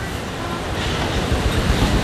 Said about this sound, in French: de l'écume au sommet des vagues. Comme il fait beau, c'est vraiment une vision magnifique. Mais vraiment, c'est une mer un peu déchaînée